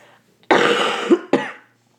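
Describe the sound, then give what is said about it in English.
Two coughs from a woman, the first a longer rasping burst and the second shorter, heard alone. “cute, really cute cough”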